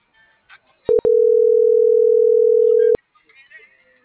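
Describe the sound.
A telephone dial tone: a steady mid-pitched hum sounds loudly for about two seconds right after two brief blips, then cuts off abruptly, with faint voices murmuring before and after.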